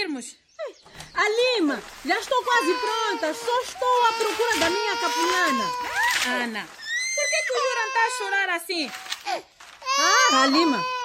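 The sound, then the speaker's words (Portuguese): A crying baby, said to have fed well but to cry constantly, lets out long, high, wavering wails broken by short gasping pauses, loud and nearly continuous throughout. “Chora muito. Mas será que ele tem fome? Não, mamou bem. Ana, ele está sempre a chorar assim, não é normal.”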